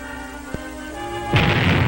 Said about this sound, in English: The light flash and the heat wave, then the blast tears away part of each roof.